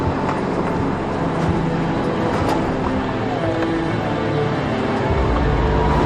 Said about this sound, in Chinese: 驾驶这辆18年车龄的老越野